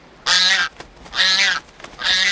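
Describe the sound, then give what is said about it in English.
Three harsh, raspy honking calls from a pelican in a film, each lasting about half a second and separated by short gaps, loud and alone without talk. “That is the sound of Pete the Pelican in the movie Flipper.”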